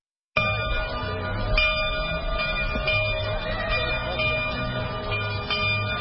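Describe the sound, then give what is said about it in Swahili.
Church bells ring out on a morning in the town of Goma: a sustained metallic ringing with strikes repeating at an uneven pace, over a low rumble. “Ni asubuhi katika mji wa Goma, kengele zinapigwa kwa mara nyingine baada ya miezi mitano ya ukimya.”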